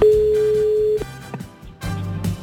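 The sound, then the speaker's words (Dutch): Ringback tone of an outgoing telephone call: one loud, steady electronic tone held for about a second, then quieter line noise with a few soft clicks and bumps. “eens even kijken hoe het qua telefoon gaat. Hij gaat in ieder geval vast over.”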